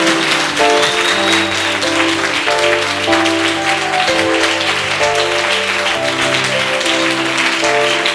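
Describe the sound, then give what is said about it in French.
Congregation applauding and acclaiming God at a worship gathering: dense, steady clapping and cheering that holds loud throughout, layered over sustained musical chords. “Regarde, tu vois, tu ne peux plus t'arrêter d'acclamer. C'est l'Esprit de Dieu qui est en train d'acclamer.”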